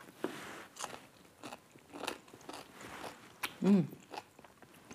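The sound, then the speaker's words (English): Crisp crunching bites and chewing of a homemade pickle with dill and a spicy pepper during a taste test, a few sharp crunches separated by softer, quieter chewing. “Time for a taste test.”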